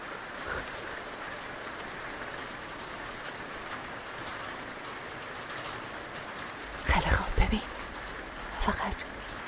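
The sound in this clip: Rain falls as a steady, even hiss that lasts the whole clip, with brief louder bursts, apparently voices, breaking in near the end.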